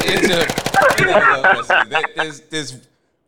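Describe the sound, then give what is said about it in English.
A machine-gun sound effect played as a playful cue: a fast, loud rattle of many bursts for about a second, then a man talking. “I got to hit the machine gun. I'm sorry.”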